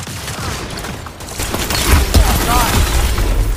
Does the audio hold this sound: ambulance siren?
no

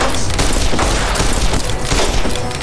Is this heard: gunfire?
yes

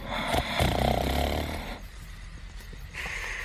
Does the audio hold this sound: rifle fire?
no

